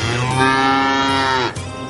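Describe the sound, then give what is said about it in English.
A sick cow with lactose intolerance moos in one long, drawn-out, low and steady call, then drops into a shorter, lower continuation. “Since time immemorial, a veterinarian could give you a diagnosis for your sick cow. Here's the problem. Bessie has a case of lactose intolerance.”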